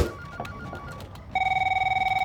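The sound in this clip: A telephone ringing tone sounds while a call to the emergency number is placed: after a brief quiet stretch with faint clicks, a steady, buzzing, rapidly pulsing electronic ring starts and continues to the end.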